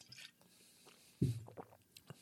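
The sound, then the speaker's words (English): A swig of Jack Daniels whiskey taken straight from the bottle, heard as one brief wet gulp followed by a few soft, faint swallowing and mouth sounds. “So I got a bottle of Jack Daniels here. I'm gonna take a little swig off it and see if I can taste it.”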